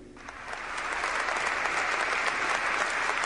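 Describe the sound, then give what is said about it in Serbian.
Steady applause fills a church on Rome's Piazza del Popolo, the Church of the Artists, as mourners honour the artist Jannis Kounellis. It builds quickly into a dense, even roar of many hands and holds at that level to the end. “Ona je tražila aplauz za Kunelisa. I tako se Rim oprostio od Janisa Kunelisa ovim aplauzom.”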